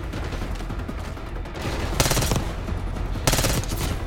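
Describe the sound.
Machine gun fire from a video game sounds in two loud bursts of rapid shots, each lasting under half a second, over a steady noisy background.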